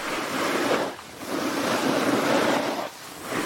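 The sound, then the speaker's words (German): A snowboard rides down a ski slope with a loud, broad hiss of sliding and scraping snow. It comes in long sustained surges, with brief dips near one second and three seconds. “Und ihr hört es direkt, wir sind beim Snowboarden und damit sind wir beim deutschen Parasnowboard-Pionier Christian Schmid.”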